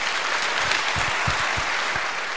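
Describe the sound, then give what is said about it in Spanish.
Sustained audience applause for the Guardia Civil of Guijuelo at a town ceremony led by the mayor: dense, steady clapping fills the whole stretch with no voices over it. “Así que un aplauso para toda la Guardia Civil de Guijuelo.”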